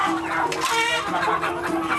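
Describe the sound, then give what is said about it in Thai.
Free-range village chickens in Cambodia cluck continuously in a busy, overlapping chorus of many short calls at moderate volume. “คนกัมพูชานิยมกินไก่เลี้ยงตามธรรมชาติหรือที่บ้านเราเรียกว่าไก่บ้านนั่นแหละครับ”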